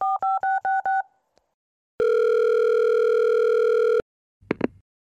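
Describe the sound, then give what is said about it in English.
A telephone dials out for a call with five quick keypad beeps, followed after a pause by one long, steady ringing tone that cuts off abruptly. “I'm gonna give Julie a call right now. So here we go. I'm gonna dial her up.”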